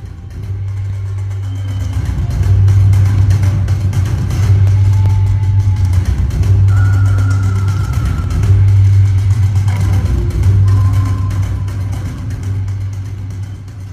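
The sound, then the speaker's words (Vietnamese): A car drives along with a steady mid-pitched engine hum that shifts in tone several times, easing slightly toward the end, with no voices. “Xe chúng tôi dừng lại trước một quán ăn nhỏ.”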